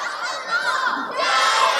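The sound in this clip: Teammates shout and cheer at a youth boxing match as a girl steps into the centre of the ring. The voices overlap in continuous, high-pitched yelling that grows louder and fuller in the second half.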